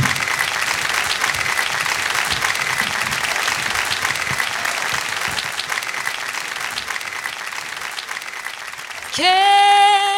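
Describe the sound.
Warm audience applause welcomes a vocal group onto the stage at a live show. The clapping is dense and steady for about nine seconds, then a sustained singing voice abruptly takes over.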